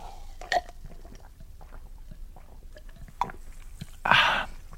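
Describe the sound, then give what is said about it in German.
A double bass player drinks beer, with a few soft gulps and small mouth noises. One loud, rough burp follows near the end. “Sie erlauben, dass ich nebenher Bier trinke. Ich habe einen wahnsinnigen Flüssigkeitsverlust.”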